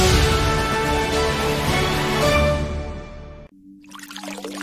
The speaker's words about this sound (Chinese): 你知道随时关紧水龙头可以节省很多水